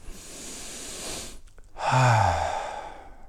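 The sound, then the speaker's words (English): A deep breath taken in and let out: a long, soft airy inhale, a brief pause, then a fuller, slightly voiced exhale like a sigh. Fairly quiet, with no speech. “Just want to invite you to take a deep breath really quickly to remind yourself you're right here, right now.”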